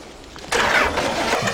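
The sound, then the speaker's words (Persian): A car engine that has sat parked a long time starts, with a quiet lead-in and then a sudden broad, steady roar about half a second in that holds to the end. “وقتی داری استارت میزنی پدال گازم فشار بده. خیلی وقت اینجا پارک بوده. باید سه بار فشارش بدی.”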